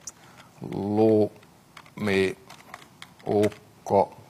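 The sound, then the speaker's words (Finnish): Quick typing on a computer keyboard as a program is entered: a rapid patter of light key clicks runs beneath a person speaking in short phrases. “naputellaan tuo ohjelma. Aika nopea naputtele.”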